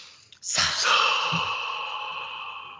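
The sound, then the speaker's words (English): A long, deep breath: airy and breathy, starting abruptly and trailing off slowly over about two seconds, heard on its own with no talk. “And as we're sitting here, I'm going to ask you to take in a breath.”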